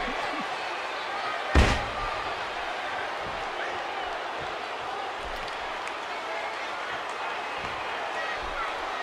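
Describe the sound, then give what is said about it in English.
A single heavy slam marks a power slam in a wrestling video game. It is one loud, brief impact over continuous, steady crowd noise. “Oh, a huge power slam by Booker.”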